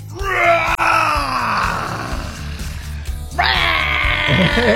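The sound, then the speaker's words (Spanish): A person forcefully exhales with the tongue out, imitating a lion's roar during a breathing exercise. It comes as a long, harsh, groaning vocal roar, then a brief dip and a second loud roar. “Sí, un rugido, no un pujido. No. Rugidos, no pujidos.”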